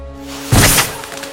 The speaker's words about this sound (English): But you're just in time for the surprise. Fireworks.